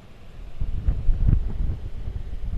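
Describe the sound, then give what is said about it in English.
Wind blows over the highest part of a hilltop farm about 600 feet above sea level. A soft, low rumble swells and eases in a few irregular gusts, with no traffic noise. “you just hear the wind. Yeah, it's quiet up here.”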